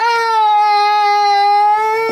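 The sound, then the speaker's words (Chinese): A child crying in one long, loud wail that holds a steady pitch from start to finish, heard alone. “你冲孩子使什么劲呢？你啊？哭了”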